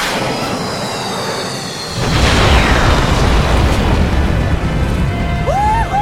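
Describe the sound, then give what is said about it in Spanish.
An explosion sound effect of a planet blowing up: a deep boom bursts in after about two seconds and becomes a loud, dense, rumbling roar that lasts to the end, with a short high whistling tone near the finish. “alcanzándolo justo antes de que el planeta explotara.”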